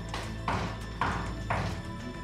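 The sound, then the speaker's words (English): Knocking at a door, a few soft, dull, evenly spaced raps over a steady low hum, faint and not much louder than the background. “At around 8:50 a.m., there's a knock at the door.”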